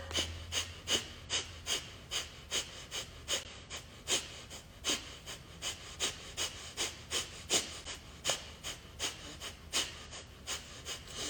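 Rapid belly-pumping breaths during breathwork: many forceful, airy puffs in a fast, even rhythm, with no talking.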